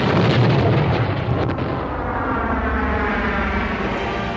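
Deep roaring rumble of a spaceship launching into space, loudest at the start and then settling into a steady, lower continuous roar.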